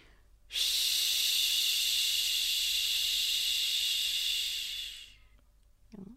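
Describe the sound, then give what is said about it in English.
A long exhaled "shh" during a breathing and voice warm-up: a voice makes a steady, bright hiss for about four and a half seconds that tapers off gently at the end, followed by a brief faint sound. “So we're going to take a deep breath in, low and deep, and just exhale on the sound shh.”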